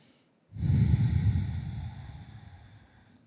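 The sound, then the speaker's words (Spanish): A single long, deep breath taken during meditation, drawn in with a loud, airy, slightly snorting rush that slowly fades over about three seconds, after a moment of quiet. “Volvemos a cerrar nuestros ojos y a respirar profundamente.”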